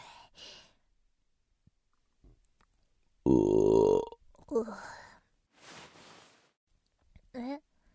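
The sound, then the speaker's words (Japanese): A person burping after eating: one loud, low, drawn-out belch, with quieter breaths and vocal sounds before and after it. “なんでゲップするのかって？しないと気持ち悪くなっちゃうんだよね。”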